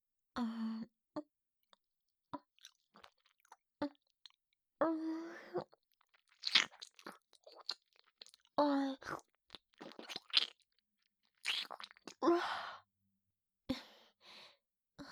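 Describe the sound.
Crunchy chewing of an apple, heard as many crisp bites and crunches in irregular bursts with short pauses, fairly quiet overall.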